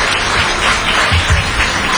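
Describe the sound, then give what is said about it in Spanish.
Audience applause for the women and the council: steady, dense clapping that holds at an even, loud level throughout with no break. “Un aplauso muy merecido para ustedes y para el presidio.”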